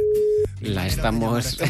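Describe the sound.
A steady telephone call tone sounds while a caller is being connected. The single flat tone lasts under half a second and cuts off sharply, and people then talk over a low background.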